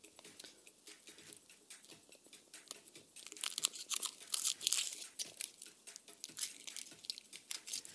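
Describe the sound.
Chocolate being unwrapped and eaten: soft crinkling and tearing of a wrapper with crunchy chewing, a faint run of irregular crackles that grows louder and busier in the middle.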